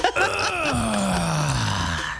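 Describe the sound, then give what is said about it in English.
A person lets out a long, drawn-out groan like one made when getting up. The moaning voice slides steadily downward in pitch over about two seconds and stays loud throughout. “How about making a groaning noise when you get up?”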